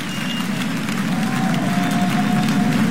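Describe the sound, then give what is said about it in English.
Rapturous applause from a concert audience for orchestra musicians at the Kuzovitsky Music Shed: dense, steady clapping that holds at an even, loud level throughout. “He turns back to the musicians after bowing to the audience and, with arms outstretched, asks them to stand and receive, again, a very rapturous applause from the audience here in the Kuzovitsky Music Shed.”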